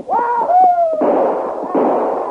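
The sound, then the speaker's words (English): A gunshot sound effect for a rider announcing his arrival on horseback: a descending ricochet-like whistle, then two harsh, noisy blasts. It is loud, with no talk. “the Taylor place and announced his arrival with a volley of shots”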